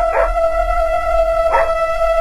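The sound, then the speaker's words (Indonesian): A dog barks and howls toward the front of parked motorbikes, a steady, sustained howling tone running throughout, broken by two short, rougher bark bursts. “Dia menggonggong... ke arah depan motor kami yang diparkir.”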